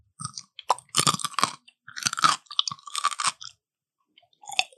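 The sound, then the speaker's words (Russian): Someone bites and chews a fresh cucumber, making loud, crisp crunches in several clustered bursts with short pauses between bites. After a quiet stretch comes one last crunch, with no voices. “Огурец. Это какой-то овощ хрустящий.”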